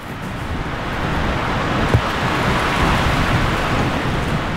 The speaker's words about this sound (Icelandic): tekið þarna í vindinum við ægisíðuna